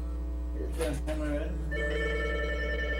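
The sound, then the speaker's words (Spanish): A telephone rings in the background with a steady, repeated tonal ring over a constant low hum, while people talk. “Yo pensé que me estaban llamando de la cabina, no, ahí está sonando de fondo.”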